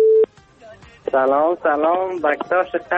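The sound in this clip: A telephone line tone as a call to a radio show connects: one short, steady, loud beep at the start, followed by a voice talking.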